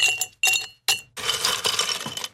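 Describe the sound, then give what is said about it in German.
Ice cubes clinking in a glass of Campari soda: three sharp, bright separate clinks, then a longer busy rattle of ice knocking against glass. “Ja, so ein Eiswürfeli.”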